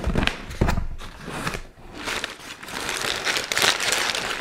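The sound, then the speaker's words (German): Crinkling and rustling of a black cardboard gift box, a little larger than A4 with a lid held by a hidden magnet, being unpacked; steady, fairly loud papery scraping and crackling runs throughout, with no talk. “Das Auspacken kann losgehen.”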